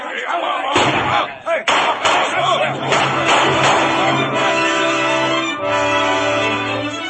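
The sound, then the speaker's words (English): Pistol shots in a staged Treasure Island radio drama: several sharp, loud bangs crack out in the first few seconds, then sweeping orchestral music carries on alone. “Long John Silver had fired only once. The other shots came from Dr. Livesey, the squire, Mr. Gray, and Ben Gunn.”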